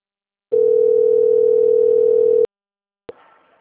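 A telephone dial tone plays while a call is being placed: one steady, pure tone lasts about two seconds and stops abruptly, then a sharp click follows with faint noise after it.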